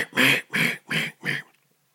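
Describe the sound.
A human voice imitates duck quacks by mouth, with no duck call. There are four evenly spaced quacks, each a short, raspy, moderately loud burst, followed by silence.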